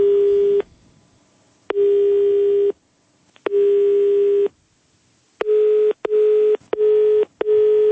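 A telephone busy signal sounds after a call is hung up: a loud, steady mid-pitched tone cut into three longer beeps, then a quicker run of short pulses.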